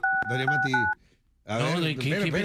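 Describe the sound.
A few touch-tone beeps of a phone number being dialed, heard over a voice, then a short pause before a woman talks on.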